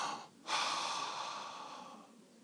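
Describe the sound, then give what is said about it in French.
Quiet breathing: a short, faint breath, a brief pause, then a longer, airy breath that slowly trails off, with no talk. “Le souffle, mes amis, entendez? Sentez ce petit filet là qui passe?”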